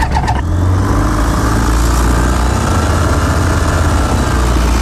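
A light aircraft engine starting up before takeoff, with a brief stutter as it catches and then a loud, steady, rumbling drone that holds without a break.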